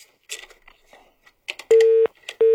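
Busy tone after a telephone call is cut off: two long, steady, even electronic tones, the second cut short, coming after some brief scattered noises.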